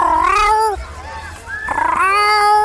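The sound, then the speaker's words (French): A cat meows outdoors in a park, two drawn-out wavering calls with a fainter stretch between them. “c'est le bruit d'un chat et on est allé le voir.”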